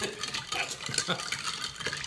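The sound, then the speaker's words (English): Ice in a drink being stirred in a container: quick, light clinks and rattles repeating in an uneven rhythm, fairly faint throughout. “And for once, we seem to have about the right amount of ice to liquid ratio for a proper stir.”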